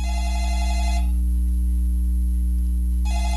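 Telephone ringing for an incoming call to a radio show: a burst of ringing, a pause of about two seconds, then ringing again, all over a steady low hum.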